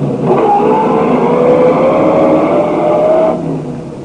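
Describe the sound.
A car engine drones loudly and steadily while driving, a faint whine creeping slowly upward in pitch before the sound eases off near the end.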